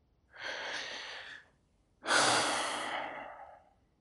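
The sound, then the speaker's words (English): A deep breath during a guided meditation: a soft, breathy inhale lasting about a second, a short pause, then a longer, stronger exhale that trails off slowly, with no talk. “Let's just take a nice, big, deep breath.”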